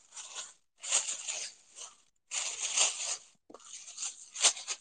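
Plastic bags being handled and folded give off crisp, crinkling rustles in a few separate bursts, each a second or so long, with brief quiet gaps between them.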